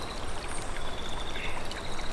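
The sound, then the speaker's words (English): Water rustling and trickling along an outdoor stream, a steady, continuous bubbling babble with no voices. “Just listen now to the water behind us, just rustling about,”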